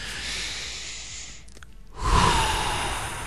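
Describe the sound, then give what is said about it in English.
People take a deep breath together: a long, rushing inhale, a brief silent pause, then a louder, sighing exhale that trails off, with no talking. “If something is stressing you out, take a deep breath. Let's all do it together.”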